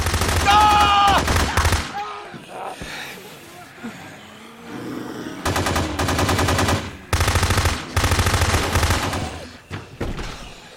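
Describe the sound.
Bursts of rapid automatic gunfire ring out loud and harsh. Several long volleys are separated by short pauses, with quieter rumbling between them.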